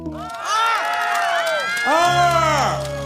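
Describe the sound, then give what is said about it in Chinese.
Crowd cheering and whooping for a performer spinning a large handkerchief while standing on a stool: many overlapping voices rise and fall in two loud swells, with no clear clapping. “你们看过没有别人转这么大手绢的话，掌声、欢呼声再次热闹一下，好不好？”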